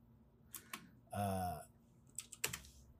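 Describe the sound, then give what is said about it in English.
Faint typing on a computer keyboard, heard as a few soft, scattered clicks in two short bursts with quiet pauses between them. “I'm typing it out. I'm looking it up.”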